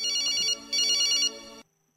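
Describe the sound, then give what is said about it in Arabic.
A telephone rings for an incoming call: two bright, trilling electronic bursts with a short gap between them, then the ringing stops abruptly and silence follows. “مكالمات هاتفية نستقبلوها. ألو ألو، مرحبا.”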